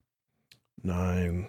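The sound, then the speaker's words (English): A computer mouse button gives a couple of quick, sharp clicks in near silence, followed at once by a loud voice. “If I just click on a bunch of buttons, click on this button, loaded to YouTube file.”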